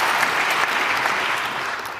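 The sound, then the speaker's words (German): Applause from an audience after a political speech, a dense, even patter of many hands clapping at once, steady and loud for the whole stretch before easing slightly at the end. “Applaus”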